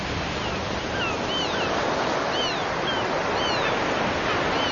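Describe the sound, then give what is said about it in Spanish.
Rough Baltic Sea water churned by hurricane-force autumn storm winds makes a steady, broad rushing roar. Faint high chirping calls sound intermittently above it. “El agua se agita con los vientos huracanados.”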